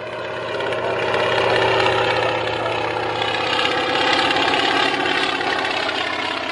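The engine of Little Annie, a red and silver Russian aircraft, drones in a steady, rumbling, even throb that holds almost unchanged in loudness throughout, with no talk.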